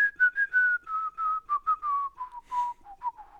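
A person whistles a tune alone, a clear, pure melody of many short and held notes that drifts gradually lower in pitch across the phrase.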